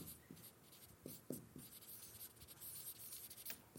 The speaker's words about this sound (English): I'm trying to write fast, so that means fast equals illegible.